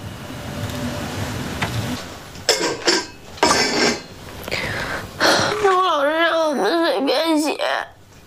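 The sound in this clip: A child cries just after eating dinner: muffled voices and clatter first, then wavering, sobbing wails in the second half.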